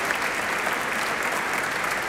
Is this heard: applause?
yes